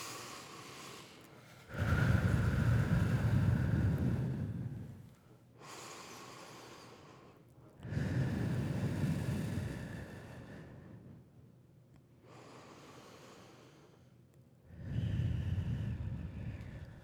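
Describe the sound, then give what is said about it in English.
Three slow, deep breaths, each a loud rushing inhale through the nose followed by a softer, longer exhale through the mouth, evenly spaced with no talking. “When I get anxious, I take 3 deep breaths. Try it and see if it works. In through your nose, out through your mouth.”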